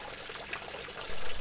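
Water trickles from a fountain in a main street, a soft continuous splashing that swells briefly louder near the end of the short clip.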